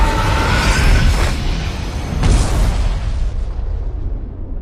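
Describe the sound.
Deep explosive rumble as cosmic bodies burst apart, a broad roaring blast that swells near the start and again midway, then fades with a dwindling, dulling roar.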